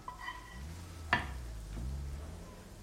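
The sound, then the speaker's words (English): Faint sizzle of eggs frying in a pan, a low continuous hiss with one sharp clink partway through. “careful. You're gonna make me burn the eggs.”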